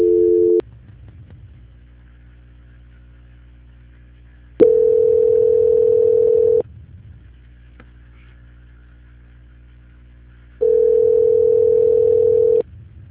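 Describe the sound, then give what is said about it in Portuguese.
A telephone tone plays while a call is being transferred: a steady mid-pitched tone sounds in three separate bursts, with long gaps of low line hum between them. “Só um minuto, por favor. Não desligue, por favor. Transferência.”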